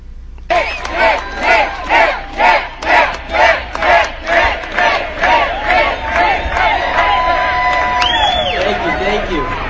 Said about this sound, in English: There was a rally against this bill, and Nick Shirley was one of the speakers, number 49.